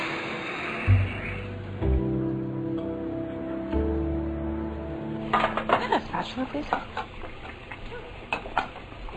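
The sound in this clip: Cooking at a pan while butter melts: metal utensils clink and tap against the pan and dishes, with many scattered clicks growing busier toward the end, and people talking.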